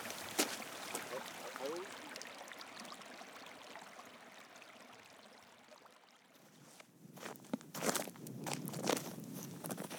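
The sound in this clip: Footsteps crunch on outdoor ground as people walk about twenty feet at an old mine site toward a wheel pit. Uneven, gritty steps run throughout and grow louder and sharper toward the end.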